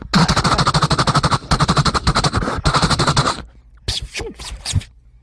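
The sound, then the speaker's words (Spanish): Rapid automatic gunfire sound effect staged in a comedic border standoff, with three long dense bursts separated by brief gaps, then a few scattered softer sounds after the firing stops. “Sir, we open fire now.”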